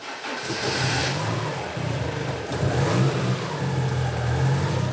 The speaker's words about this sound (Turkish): Marşa basabilir miyim?